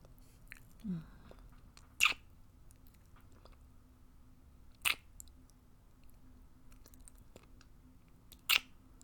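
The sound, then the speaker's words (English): Kissing: a few brief, faint wet smacks spaced several seconds apart against a quiet background, with no talking. “So, kiss me. Kiss me, young man.”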